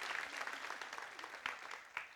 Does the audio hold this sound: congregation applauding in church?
yes